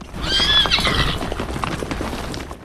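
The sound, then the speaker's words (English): A horse whinnies with a high, wavering cry near the start while ridden over a hill crest, followed by a steady run of hoof clip-clops from a trot. “Floyd appears on horseback over the brow of a hill. He rides towards Billy and some of the rangers.”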